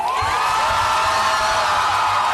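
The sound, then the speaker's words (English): Crowd cheering in Tel Aviv as Israeli hostages are released, a loud, sustained roar of many voices with high whoops and shouts rising above it. “Cheers erupted in Tel Aviv as Hamas released three more Israeli hostages.”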